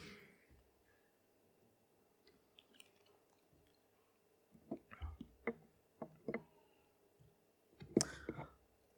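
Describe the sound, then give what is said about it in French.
Faint mouth sounds of someone drinking a little water: a scatter of soft clicks and swallows, followed by one louder gulp or click. “Et juste avant, je vais juste boire un peu d'eau.”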